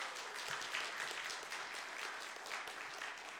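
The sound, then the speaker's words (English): Church audience applauding its worship team during a Good Friday service, a soft, steady wash of many hands clapping that holds evenly for the whole stretch with no voices over it. “Can we just give it a round of applause to our worship team, Sheila?”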